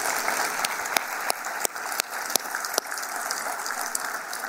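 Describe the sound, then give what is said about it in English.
Applause from a church audience honouring mothers on Mother's Day, a steady bed of clapping with several sharp, loud individual claps standing out above it at irregular intervals. “Let's give them a hand. Thank you, moms.”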